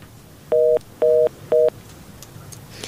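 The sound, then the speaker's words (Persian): A telephone keypad sounds three steady dialing tones, each about a quarter second long and evenly spaced, followed by faint hiss. “خب ای تماس هم میگیریم، باز به سوالاش هم میپردازیم”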